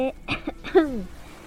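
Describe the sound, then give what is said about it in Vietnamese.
A couple of short, faint, dry coughs sound alone, ending in a voiced, falling throat-clearing rasp. “Lam Vũ Lan Phong không thể nói chuyện kia được, đành phải ho khan hai tiếng”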